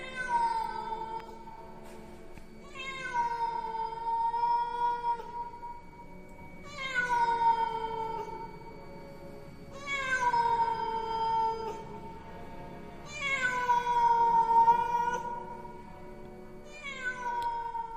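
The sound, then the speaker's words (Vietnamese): A feral cat yowls eerily: six long, drawn-out cries spaced a few seconds apart, each starting high, sliding down and holding a wavering wail. “Xen lẫn trong không gian đó, một tiếng con mèo hoang ở đâu kêu lên những tiếng đến ghê rợn.”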